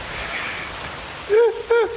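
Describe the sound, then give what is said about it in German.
Heavy rain gives a dense, steady hiss across the whole clip, and two short voiced sounds break in near the end. “Es regnet richtig doll gerade und ich bin sehr froh, nicht nass zu werden.”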